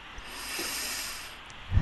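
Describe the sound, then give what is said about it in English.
A single slow, deep breath taken as part of a relaxation exercise: a soft, steady airy rush, held for about a second, with a brief low puff at the very end. “You want to take a deep breath,”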